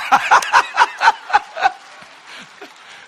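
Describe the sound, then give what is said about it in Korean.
A quick string of sharp, bright laughs comes in rhythmic pulses, then trails off into softer, scattered chuckles. “아, 좀 안 웃습더라도 그냥 박수치고 웃어”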